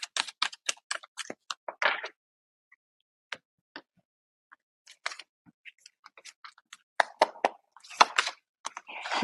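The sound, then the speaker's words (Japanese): Oracle cards being shuffled and drawn from a deck: many quick, dry taps, flicks and card snaps in busy bursts, separated by a quieter stretch of sparse clicks, with no talk. “それでは、ちょっとオラクルカード、ジャンプカードではなくね、引いていきましょう。”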